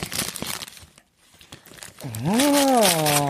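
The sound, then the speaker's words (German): A gift wrapped in Christmas paper being unwrapped: a burst of crackly crinkling and tearing, a brief near-silent pause, then a drawn-out voice over continued loud rustling. “Soll ich das auspacken? Ja, komm, guck hier, nimm's bitte. Ja, danke. Ich habe es extra in Weihnachtspapier eingepackt.”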